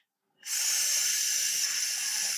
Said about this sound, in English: Greg reckons if we could hear it, it would sound something like this.